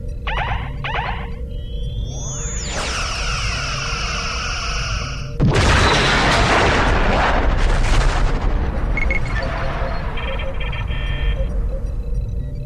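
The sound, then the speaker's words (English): Phaser fire from the starship USS Selena in a starship combat video game: a rising electronic sweep, a sustained pulsing energy beam, then a loud roaring blast with a rumbling, crackling tail that slowly thins out. “USS Selena. Firing phasers.”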